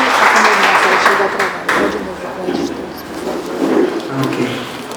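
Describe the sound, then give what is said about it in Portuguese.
A church audience applauding, a dense, steady wash of clapping with a voice speaking loudly over it throughout. “Aplauda Jesus por isso que Ele nos falou hoje à noite.”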